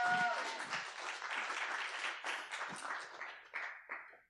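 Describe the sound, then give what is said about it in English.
Applause from a church audience welcoming a guest speaker to the front: dense, steady clapping that keeps an even level throughout and thins out in the last moments. “So if you would give her a welcome and a hand as she comes to bring the Word today.”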